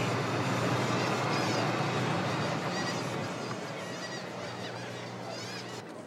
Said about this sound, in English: A lot of seagulls.